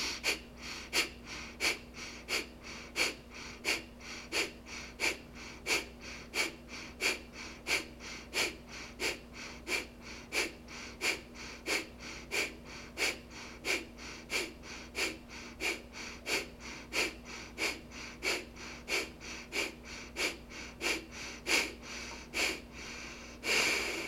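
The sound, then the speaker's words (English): Gentle breath of fire breathing exercise: many quick, forceful nasal exhales in a steady, even rhythm with no talk, ending with a slightly stronger breath. “Now perhaps a quarter breath in for your gentle breath of fire.”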